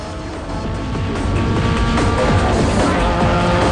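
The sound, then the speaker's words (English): Engine roar of a car accelerating away at speed along a deserted road, loud and sustained, with the engine note building and sweeping up through the gears. “He slams the gear into first and stamps down on the accelerator. The car bolts off along a deserted road. Swiftly moves up the gears and the vehicle rockets along the road at breakneck speed.”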